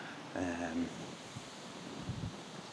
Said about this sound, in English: So wind just kind of got the marshes across to my right, and the wind just kind of got up and made a lot of noise. I have got the wind muffler on, so hopefully you'll still be able to hear me.